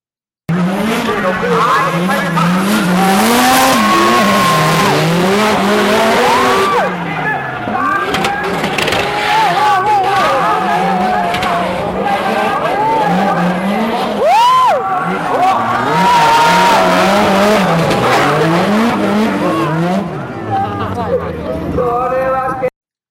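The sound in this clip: Tire squeal and engine roar from cars drifting at a D1 Grand Prix event, a loud, continuous wash of wailing, sliding tones that holds for about twenty seconds before thinning out near the end.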